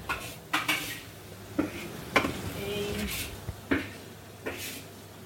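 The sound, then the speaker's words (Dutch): A spoon scoops and stirs ground turmeric and cumin in a pan, giving several sharp metallic clinks and scrapes against the pan at an uneven pace, with quieter rustling between them. “ondertussen scheppen en roeren. Ja, want anders plakken ze in de bodem van de pan.”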